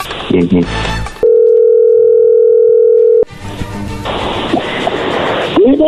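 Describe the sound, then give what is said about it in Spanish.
A steady single-pitch telephone tone holds for about two seconds while a call is being dialed, with busy noisy sounds and voices just before and after it. “ahí se está marcando”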